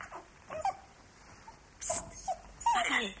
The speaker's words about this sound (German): Dackel, komm, komm daher. Aber nicht bellen, schön ruhig sein.